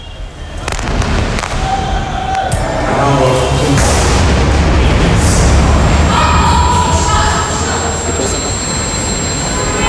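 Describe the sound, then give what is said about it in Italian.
Israeli bombs fall and explode on a city, making a loud, continuous rumbling roar with deep booms and sharp crackling bursts that swell and persist across the whole stretch. “Ed ecco le bombe israeliane che cadono sulla città.”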